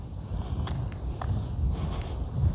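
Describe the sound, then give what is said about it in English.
Footsteps of a man walking outdoors: soft, low thuds in an even walking rhythm, faint and unaccompanied by any voice. “Out here, trying to get these steps in. Gonna do a little extra.”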